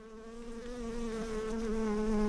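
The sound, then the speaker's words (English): Honeybees buzz around farm hives in Appalachia that supply honey for mead, a dense, steady droning hum that grows slightly louder and carries on without any voices. “At their farmhouse just a few miles away, Tom shows me the bees that make the honey used in Mountain Dragon's mead.”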